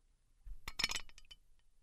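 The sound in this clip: A spoon clinks against a glass as a cocktail of berries, Cointreau, lime juice and club soda is stirred before the ice goes in: a short, quiet cluster of bright, quick clinks, with no voices.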